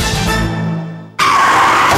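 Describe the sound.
A car skids and crashes in a traffic accident: a sustained, harsh screech fades out, then an abrupt, loud burst of crashing noise begins and continues to the end.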